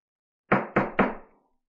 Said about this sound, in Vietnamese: Tiếng gõ cửa vang lên.